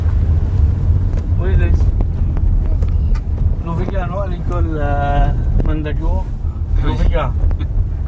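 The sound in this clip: Steady low road rumble fills the interior of a moving car travelling between Mandagout and Le Vigan, with people talking over the continuous engine and tyre noise.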